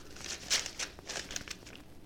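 A paper envelope being torn open, with soft crinkling and ripping rustles in a few irregular bursts, faint throughout.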